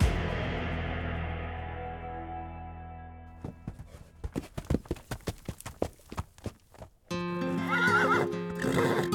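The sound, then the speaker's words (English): Horses pulling an 1883 stagecoach: a long whinny trails off, then a run of sharp clip-clopping hoofbeats, followed by another loud neighing burst. “We begin midday on November 3, 1883, as the stagecoach driver rode past a rise called Funk Hill.”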